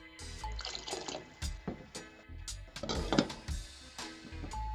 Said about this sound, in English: As you can hear, lid goes back on and we're gonna wait for a full rolling boil.